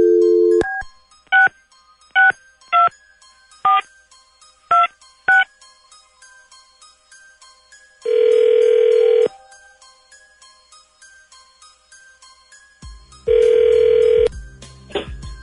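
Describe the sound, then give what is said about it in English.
A telephone number is dialed at random as a series of short keypad tones, roughly seven quick beeps. Two long, loud ringing bursts follow, separated by a pause. “Hang on to your pay stubs, everybody, because here we go. Dialing at random.”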